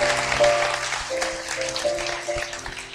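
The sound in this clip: Applause from a church audience welcoming new believers: steady, dense clapping that runs through the whole stretch at an even level, with a faint sustained tone beneath.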